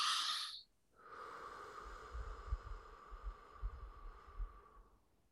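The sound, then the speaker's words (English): A slow, deep breath drawn in and released during a guided breathing exercise: a long, soft, airy rush follows a brief pause, over a steady low hum and soft low thuds. “This time, take a deep breath, go in and slowly release as much as slow. Like this.”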